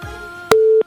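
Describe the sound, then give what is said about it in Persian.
Telephone busy signal after a call fails to connect: a single steady, low-pitched tone about a third of a second long that starts and stops abruptly over a faint background hum. “فکر میکنم که تماس وصل نشده یا قطع شده.”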